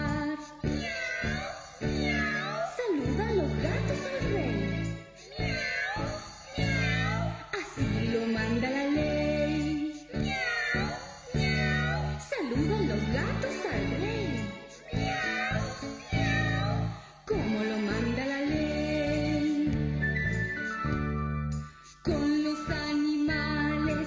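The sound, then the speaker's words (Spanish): Singing voices imitate cats meowing in a children's song about cats greeting a king, with meow-like sliding notes repeating over steady, loud music that continues throughout. “Con los animales el rey quiere jugar y ordena que los gatos lo vengan a saludar.”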